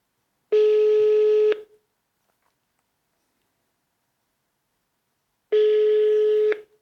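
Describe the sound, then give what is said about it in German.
Ringing tone of an outgoing telephone call: two steady, buzzing tones, each about one second long, separated by several seconds of silence. “Ja, Flo anrufen.”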